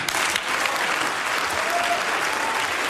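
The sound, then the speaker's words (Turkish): Sustained applause fills the Baden-Württemberg state parliament, where many members clap together in a loud, dense, even roar that holds steady from start to finish. “Oyununuza gelmeyiz diyen Hagel'in bu sözleri üzerine Baden-Württemberg Eyalet Meclisi'nde büyük bir alkış koptu.”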